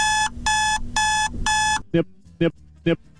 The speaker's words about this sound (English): The first noise that he plays is it's the sound of Satan. Right. The actual alarm.